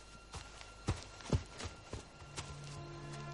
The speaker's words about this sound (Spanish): Fred corre hacia la casa.